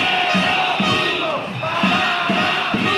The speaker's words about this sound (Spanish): Este lunes centenares de personas ya se han concentrado en las protestas por las tres provincias aragonesas.